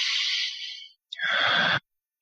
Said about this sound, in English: Okay, let's take a deep breath in.